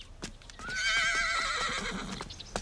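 A horse neighs in one long, loud whinny with a wavering, tremulous pitch, while hooves clop intermittently before and after it.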